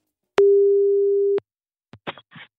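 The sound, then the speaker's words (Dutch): Telephone ringing tone heard while a call is placed: one steady, loud, low-pitched beep lasting about a second, followed after a short pause by a few brief, fainter bursts of sound. “En die gaan we even bellen.”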